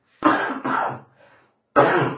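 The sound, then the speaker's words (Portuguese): Coughing from a person speaking during a lesson on scripture: three loud, harsh coughs, the first two close together, with a faint short one in the pause before the last. “vocês me perdoem as interrupções aí com a tosse, viu?”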